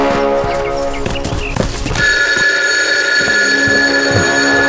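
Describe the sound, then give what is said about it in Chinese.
A telephone bell rings for a colonel, a steady, bright, continuous ring that starts about two seconds in after some scattered clattering and keeps sounding to the end. “大佐閣下、電話です。”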